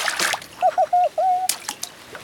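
Water splashing as a child jumps into a paddling pool: a bright, broad splashing burst, a few short high squeaky tones, then another splashing burst.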